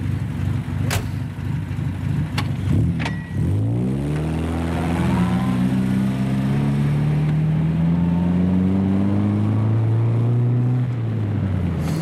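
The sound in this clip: A car pulls away on the outskirts of a town, heading toward Amsterdam. A few sharp clicks come first, then the engine's pitch climbs and settles into a steady driving hum that drops near the end. No one talks.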